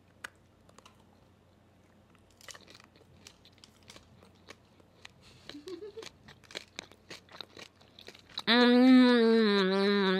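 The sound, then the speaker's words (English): Biting and crunching into a treat: many sharp, irregular crisp crunches and clicks, fairly quiet, over several seconds, then a loud sustained tonal sound at the end. “You should do a little ASMR chomp. Okay. I always just want to put the whole thing in my mouth, but then I won't be able to savor it. No, you have to bite.”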